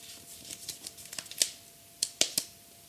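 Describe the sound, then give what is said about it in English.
A paper envelope is torn open in a quick run of sharp, crisp crackles and rips, several clustered snaps followed by three louder tears near the end, fairly faint and with no talking. “Opening the envelope right now.”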